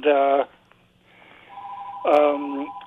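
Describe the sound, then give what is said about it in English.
A telephone rings during a talk before an audience: two loud, harmonically rich ringing bursts, at the start and near the end, with a steady held tone linking them. “as the phone keeps on ringing”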